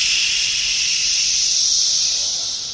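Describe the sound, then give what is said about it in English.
A chorus of periodical cicadas forms a loud, steady, hiss-like buzz that runs unbroken through the whole stretch, sounding much like white noise, with no voices over it. “What's so interesting about the cicada sounds is when you just hear it for the first time, you just hear white noise.”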